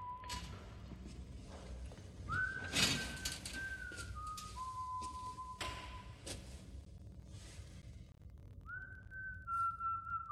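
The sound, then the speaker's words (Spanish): A man whistles a slow, wavering tune in a few sustained notes with pauses while combing his slicked hair in a corridor with a cement floor; the whistling is faint, with scattered thumps and taps around it. “El ratón se detiene ante Percy, que silba mientras se peina con parsimonia su pelo engominado.”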